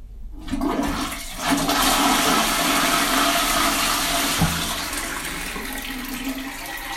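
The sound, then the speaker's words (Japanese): A toilet flushing, a loud sustained rush of water that starts abruptly, holds steady for several seconds and then slowly tapers off toward the end. “じゃあ流して”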